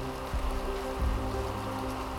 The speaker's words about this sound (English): It is raining like crazy. It's not going to stop raining. This is no ordinary rain. This is a monsoon.